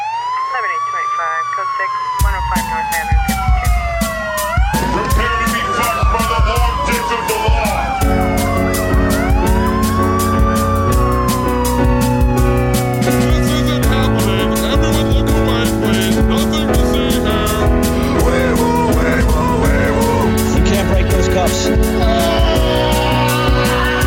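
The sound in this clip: A police siren sound effect wails in loud rising and falling sweeps, then a rapid yelping pattern, while music with a steady beat plays underneath and carries on after the siren ends.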